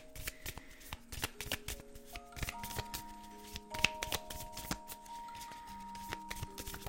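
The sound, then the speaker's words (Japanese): Playing cards being shuffled by hand: a deck riffled and cut in many quick, crisp clicks and papery flutters, steady and fairly quiet throughout, with no talk. “この切るのも私まだ慣れなくてさちょっとあれよねよし頑張ってシャッフルしていきます”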